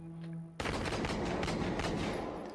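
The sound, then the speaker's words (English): Gunfire in a body cam footage style video game: a quiet tonal lead-in is cut off by a sudden blast, followed by many rapid, rattling shots blurring into sustained loud crackling. “It's based as a body cam footage game, isn't it? Yes, yeah. Shots fired!”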